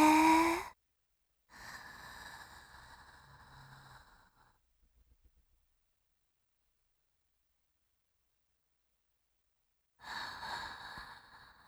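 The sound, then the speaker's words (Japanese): Slow, deliberate breathing out and in, a few long, airy breaths, each lasting a couple of seconds, separated by a long silent pause and kept quiet throughout. “吐いて、吸って、”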